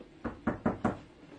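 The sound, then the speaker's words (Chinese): Four evenly spaced knocks on a door at night, short and muffled, sounding fairly quietly over a near-silent background. “咁夜有人敲门嘅吓？”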